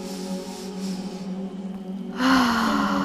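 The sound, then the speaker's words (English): A single deep cleansing breath is drawn during a guided relaxation and stretching exercise. A soft, airy rush of breath swells near the end over a steady, gentle musical background. “Take a third deep cleansing breath.”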